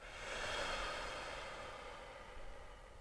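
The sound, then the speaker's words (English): A slow, deep breath drawn in through the nose and let out again during a guided meditation, soft and airy, swelling early then gradually tapering away. “Let's try that together two more times. Breath in through the nose. Deep breath out.”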